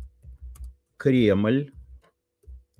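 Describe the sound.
Keystrokes tap out a text on a keyboard as a few soft, low clicks. A brief voiced sound breaks in midway before more scattered taps follow.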